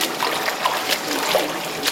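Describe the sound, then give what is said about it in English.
Water splashes and trickles in a standard indoor swimming pool, a continuous wash of watery noise broken by a few soft splashes. “A standard swimming pool.”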